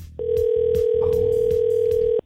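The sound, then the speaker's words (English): Telephone ringing on an outgoing call: one long, steady ringback tone holds loud and unbroken for about two seconds, then cuts off abruptly, with a low, faint rumble underneath. “Three ringy dingies, not optimistic.”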